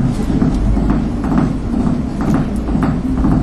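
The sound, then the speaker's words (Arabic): Heart sounds with a third sound form a galloping rhythm, repeated soft triple thumps like a horse's hoofbeats, steady and fairly loud over low muffled rumble. “طبعا هنا هسمع الثلاثه مع بعض، فهتسمع زي خطوه الحصان.”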